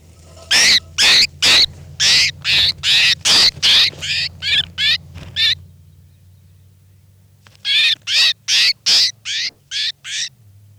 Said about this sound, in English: Start recording now. I'm going to be handling bird 405.